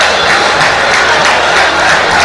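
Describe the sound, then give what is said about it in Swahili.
Football crowd clapping and roaring during a match involving Mashujaa, a dense, steady wash of noise that stays loud throughout without clear breaks. “Dumbia makofi yanapigwa.”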